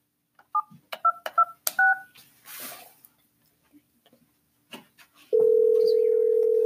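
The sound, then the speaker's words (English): Touch-tone beeps as a phone number is dialed: several short keypad tones mixed with light handling clicks, then after a pause a loud, steady line tone holds to the end. “Alright, let me call her. Let me dial it right now.”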